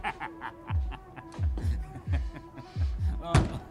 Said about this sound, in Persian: در میزن. فکر کنم خودش.